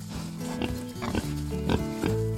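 Pigs in a stall drinking milk grunt and squeal in repeated, harmonic bursts, with several overlapping calls of different pitch forming a steady, busy chorus.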